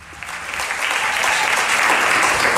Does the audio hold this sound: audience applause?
yes